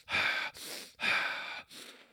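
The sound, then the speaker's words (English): Forceful rhythmic breathing from a breath-work exercise: long, loud breaths alternate with shorter, softer ones across two cycles, airy and hissing, with no talking. “And I do this breath work.”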